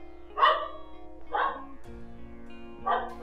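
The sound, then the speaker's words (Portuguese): A female dog barks three times, with sharp, evenly spaced barks over a steady low hum. “Minha cachorra tá latindo.”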